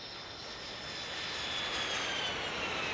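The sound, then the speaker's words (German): An airplane in flight gives off a steady, faint engine drone with a broad, even roar and no change in level throughout. No voices are heard. “Wir fliegen nach Mosambik in den Südosten von Afrika.”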